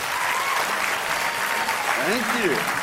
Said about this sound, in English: So let's give him a very, very big Sydney welcome. Let's put our hands together for Don Tolman.